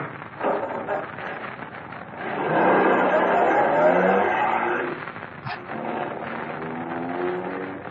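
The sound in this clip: Car driving, a broad, steady road and engine roar that swells to its loudest in the middle and then eases back to a lower, even rumble.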